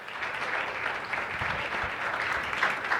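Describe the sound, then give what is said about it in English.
A church audience applauds its guests with steady, full clapping that holds evenly throughout, with no voices over it. “So let's put our hands together and say thank you to our guests. Come on, you can do better than that. Let's go.”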